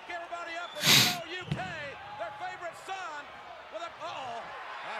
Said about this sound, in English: Oh, power slam situation. He loves picking people up.